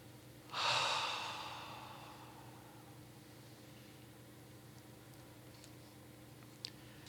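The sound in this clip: A single long exhale, breathing out as a deliberate release. A soft, breathy rush starts abruptly, then fades gradually over about a second and a half, alone against near silence.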